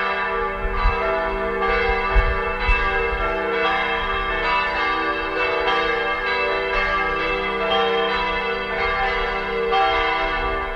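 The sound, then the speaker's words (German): Three church bells cast in 2019 ring from a church in Schöneck in the Vogtland, Saxony, rebuilt after a town fire. Their loud, full peal is continuous, with many overlapping strikes and long ringing tones blending throughout. “Gegen Ende des Kirchenmagazins läuten bei Radio PSR Kirchenglocken aus Sachsen. Diesmal geht's ins Vogtland nach Schöneck. Dort steht die St. Georgskirche.”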